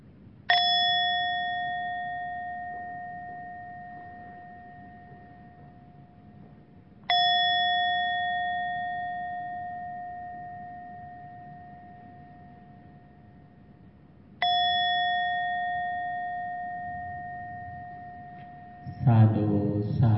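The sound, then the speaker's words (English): A meditation bell rung three times at the close of a Buddhist loving-kindness meditation: each strike is a clear ringing tone that fades slowly, spaced about seven seconds apart, followed by a brief burst of noise at the very end. “With that intention, I open my eyes gently with the sound of this bell.”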